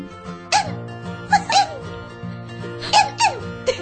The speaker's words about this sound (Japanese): こんなシャラ臭い咳払いでさ、何が取れんの？ なんか子犬が泣いてるみたいな感じ。